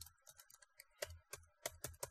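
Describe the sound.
Typing on a computer keyboard: a faint, irregular run of many quick, crisp keystroke clicks, some landing harder than others, with no voices.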